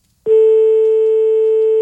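A loud, steady telephone tone after a call is hung up, starting abruptly and holding one unbroken pitch with a higher overtone until the end, with no talk over it.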